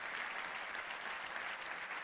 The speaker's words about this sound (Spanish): Vamos, y ese es el aplauso al Señor. Dáselo mejor.